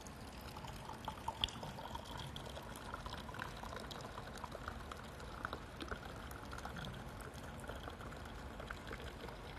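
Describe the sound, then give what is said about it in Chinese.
Fragrant liquor pours from a bottle into a glass and foams up, a faint, steady, continuous gurgling stream with no talking. “然后再来，我要把它倒在前面的杯子里面啊， 看一下。”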